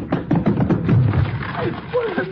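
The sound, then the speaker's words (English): A flimsy locked door is rushed and forced open, giving a cluster of heavy, dull thuds in the first second. A brief voice follows. “Door is undoubtedly locked, but it's flimsy. One push ought to do it. Come on. We'll rush it together.”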